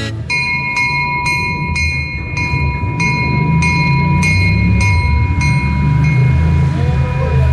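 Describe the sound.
Train sounds at the Lourdes railway station: a steady low rumble with a regular series of sharp clicks and sustained high ringing tones, loud throughout.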